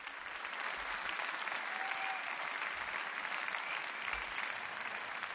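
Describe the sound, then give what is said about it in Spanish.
Applause from a live concert audience after a big band performance, a steady, dense wash of clapping that holds at an even level throughout, heard alone without voices. “En directo, como pueden apreciar por los aplausos.”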